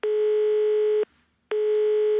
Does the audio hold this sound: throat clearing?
no

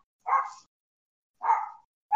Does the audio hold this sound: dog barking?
yes

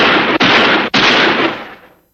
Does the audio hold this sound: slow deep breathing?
no

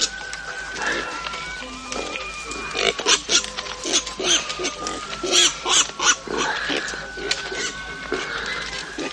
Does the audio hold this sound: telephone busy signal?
no

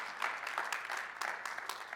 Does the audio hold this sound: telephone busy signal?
no

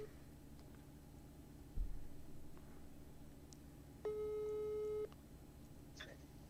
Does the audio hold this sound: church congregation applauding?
no

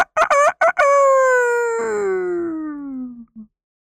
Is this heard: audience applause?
no

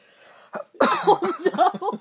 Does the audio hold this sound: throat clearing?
yes

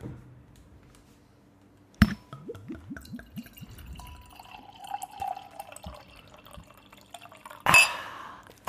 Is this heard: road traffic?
no

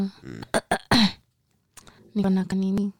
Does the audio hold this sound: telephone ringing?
no

